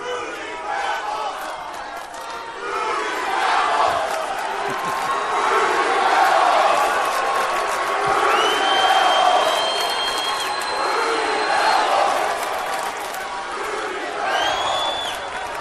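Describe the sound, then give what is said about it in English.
A large crowd chants and shouts together in a loud, sustained roar, with cheering rising and falling over about fifteen seconds and no break in the noise. “damn, I love that chant. I mean, really, that's a good one.”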